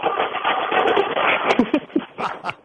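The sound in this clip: A shopping cart with a bad wheel being pushed gives a continuous rattling, juddering whir that holds steady for about a second and a half, then breaks into uneven bumps and clatters.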